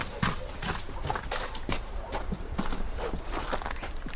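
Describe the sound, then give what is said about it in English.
Footsteps of a man walking out into snow, a run of many rhythmic muffled crunches at a steady pace over a constant background hiss. “He's walking out into the snow in it.”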